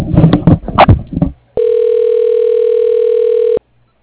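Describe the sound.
A telephone call ringing before going to voicemail: after a stretch of talk, one steady ringback tone holds at an even pitch for about two seconds, then cuts off into silence.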